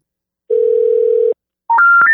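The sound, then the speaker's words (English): A telephone dial tone sounds while a call is being placed: a steady, loud, low hum lasting under a second, then a short gap and a quick run of higher electronic tones stepping upward in pitch. “So let's give John Hiley a call.”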